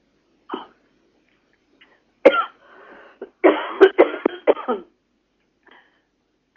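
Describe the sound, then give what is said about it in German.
Coughing from a person who has just choked on something swallowed the wrong way: a few sharp, isolated coughs, then a denser burst of harsh hacks, with quiet gaps between. “Entschuldigung, bitte. Kein Problem. Da habe ich mich verschluckt.”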